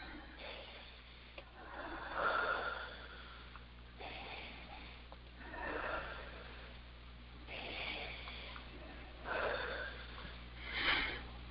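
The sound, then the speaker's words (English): Deep breaths taken during a guided healing session, a few soft, drawn-out breaths that swell and fade one after another, faint and alone with no talking. “And 3 nice deep breaths.”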